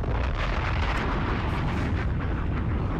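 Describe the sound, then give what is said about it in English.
A bomb explosion sound effect fills the whole short stretch as a loud, dense, continuous rumbling roar with no clear break or talk. “Bombs!”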